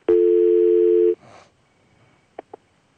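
Telephone line tone as a radio call-in show takes its next caller: a steady, low, pure hum lasting just over a second, followed by a brief burst of noise and then two short, sharp clicks.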